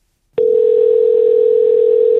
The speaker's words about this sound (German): Anruf in einem Schuhgeschäft.